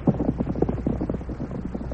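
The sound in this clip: Hoofbeats of the horse Silver as riders ride on: a steady, rhythmic clip-clop of many soft thuds, fairly faint over a low, windy rumble.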